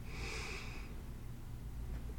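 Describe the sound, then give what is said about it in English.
A single deep inhale through the nose in a guided chakra meditation, a breathy hiss of under a second, over a low, steady background hum. “Take a deep inhale.”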